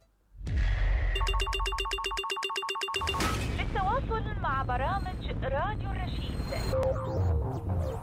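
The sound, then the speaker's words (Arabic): A telephone rings on a radio call-in line: a rapid, evenly pulsed electronic trill with bright, buzzy overtones that lasts about two seconds. Warbling electronic tones follow at a steady, fairly loud level. “أهلا بيكم على هواتف راديو الرشيد.”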